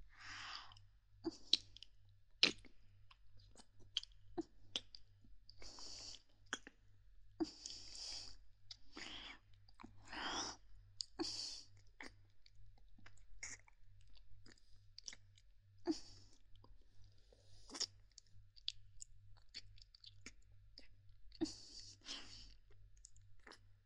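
Someone tasting food by chewing: many soft, wet chews, smacks and small mouth clicks in an irregular rhythm, quiet and close.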